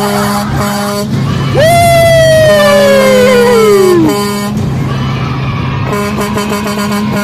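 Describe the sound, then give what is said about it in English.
An 18-wheeler's air horn blares in one long, loud blast whose pitch slides steadily downward before cutting off, over a continuous droning background. “That motherfucker driving that 18-wheeler, bro. He is fucking on that horn, bro.”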